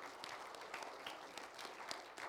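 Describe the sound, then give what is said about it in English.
A church audience clapping their hands in worship, a fairly quiet, continuous patter of many claps with no talk over it. “Clap your hands to Jesus.”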